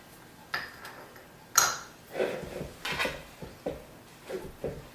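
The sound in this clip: Light clinks and knocks of a bowl as dough is put back into it with a little oil, a series of soft, irregular taps with one sharper clink near the start.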